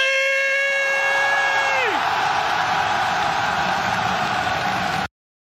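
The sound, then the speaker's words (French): An arena concert crowd in Paris in 2017 screams and cheers. A long, high, sustained tonal cry drops away in pitch after about two seconds, then a dense, steady roar continues until it cuts off abruptly near five seconds. “J'y étais. Euh, j'ai encore mal au corps vocal euh, de, comment on a hurlé. Mais c'était légendaire. Donc 2017 à Bercy.”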